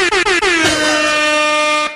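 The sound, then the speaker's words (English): An air horn sound effect blares: a few rapid, stuttering short honks run into one sustained, brassy blast that lasts over a second before cutting off. Loud and alone, with no talk. “Air horn news might be a thing here on Mix 94.9”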